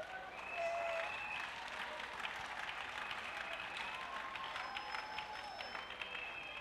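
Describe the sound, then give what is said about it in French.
Applause from an audience honoring the interpreter during a church sermon, a dense, steady wash of many hands clapping that holds for the whole stretch and swells slightly near the start. “Acclamons notre interprète.”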